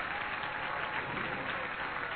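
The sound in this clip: An audience claps hands during worship, a steady dense wash of applause that holds at even loudness throughout, with no voices standing out.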